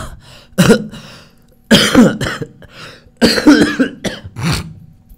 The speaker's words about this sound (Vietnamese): Tự nhiên ho quá.